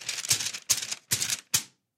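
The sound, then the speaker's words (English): A sheet of paper rustled as a sound effect: four short, crisp crinkling bursts with brief pauses between them, fairly quiet and heard alone. “Now, I have the paper just for sound effects, because clearly I did not print it out.”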